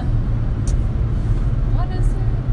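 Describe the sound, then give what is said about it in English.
Steady road noise from a car driving on the road between Harrisburg and Pittsburgh, a continuous low rumble and hiss throughout with a faint voice under it. “once again, just driving from Harrisburg to Pittsburgh”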